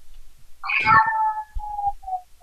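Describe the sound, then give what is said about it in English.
A cat gives one loud, drawn-out meow that trails off into a few short, fainter tonal notes. “Not even a cat's meow. Well, maybe that.”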